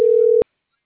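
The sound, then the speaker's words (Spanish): A telephone tone heard while dialing someone: one steady, mid-pitched beep lasting under half a second, then silence. “ya le estoy marcando a alguien más”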